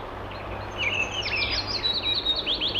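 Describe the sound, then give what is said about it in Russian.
A chaffinch sings a rapid run of bright, high chirping notes lasting about two seconds, fairly faint over a soft steady hiss. “Послушаем зяблика.”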